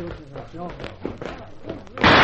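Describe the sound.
A single loud, sharp gunshot sound effect bursts out in a radio drama, coming abruptly after voices speaking.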